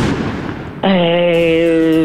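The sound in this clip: A comic explosion sound effect for an old woman bursting after eating lasagna in a restaurant scene: a loud rushing noise burst for under a second, cut off by a sustained, buzzy low tone that holds to the end.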